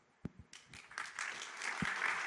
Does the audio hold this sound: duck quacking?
no